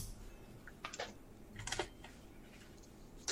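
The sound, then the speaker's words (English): Dice rolled for initiative in a tabletop role-playing game: a few quiet bursts of short clattering clicks, separated by near-silence, with no talk. “But let's roll initiative to see what happens next.”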